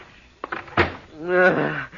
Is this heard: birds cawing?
no

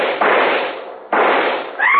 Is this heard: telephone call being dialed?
no

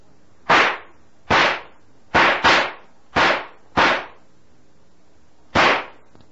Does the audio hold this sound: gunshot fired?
yes

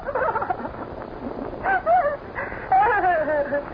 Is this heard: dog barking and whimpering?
yes

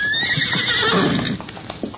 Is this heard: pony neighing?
yes

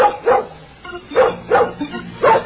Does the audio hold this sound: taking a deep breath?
no

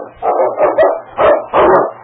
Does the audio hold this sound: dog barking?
yes

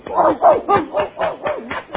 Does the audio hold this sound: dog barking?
yes

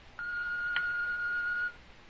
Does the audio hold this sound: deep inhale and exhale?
no

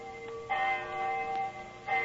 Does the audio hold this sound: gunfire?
no

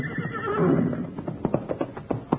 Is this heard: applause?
no

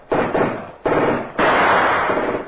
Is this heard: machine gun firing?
yes

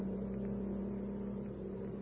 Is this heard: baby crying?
no

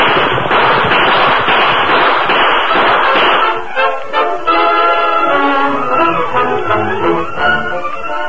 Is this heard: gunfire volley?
yes

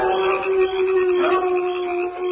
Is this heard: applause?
no

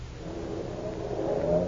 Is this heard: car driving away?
yes

